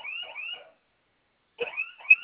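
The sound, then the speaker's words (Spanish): A security alarm sounds from a keypad: shrill, warbling electronic tones in two bursts, separated by a pause of about a second. “Sonó su alarma, ¿verdad?”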